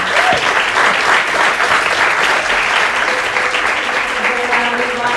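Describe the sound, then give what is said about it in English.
An audience claps together at the end of a lecture on discipleship, giving a dense, loud and even round of applause that lasts through the whole stretch without any pause. “We should all give a round of applause for all their work and their efforts.”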